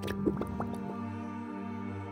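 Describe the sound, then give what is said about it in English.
Small celery-salted items are dropped into a mixed drink, making a few soft plops and drips over a steady low hum. “Then we stir it quick with our little friend here. Roll them in celery salt. And then drop them in for a swim.”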